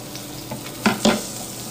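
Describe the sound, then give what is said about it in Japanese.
Fried eggs and sausages sizzle in a pan with a steady, hissing crackle. Two brief louder scrapes or clicks, like a utensil stirring or touching the pan, stand out in the middle. “目玉焼きが焼けました目玉焼きと、えー、ウインナーもねそろそろ焼けてきたかなっていう感じ”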